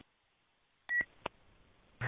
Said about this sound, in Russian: все принято, кто-то пикает